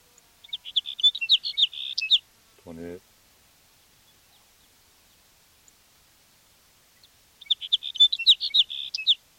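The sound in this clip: A sage sparrow sings in a field recording: two bouts of high, thin, twittering song phrases separated by a brief low spoken voice and a long quiet gap.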